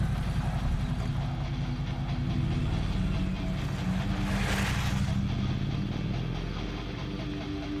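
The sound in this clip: A motorcycle engine in a video game drones steadily and loudly throughout with a low, rumbling tone and no clear rise or fall, and no voices are heard.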